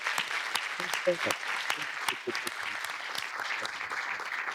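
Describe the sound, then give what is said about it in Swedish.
Audience applause after a speaker at a public talk on Turkey in Stockholm: steady, dense clapping from many hands that continues throughout, fairly faint. “I think you deserve a big applause for being here with us.”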